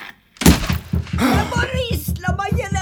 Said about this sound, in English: Sorry about the noise, Mrs. Tassiopoulos. I was just destroying my Alexa because she never, ever, ever listens to me.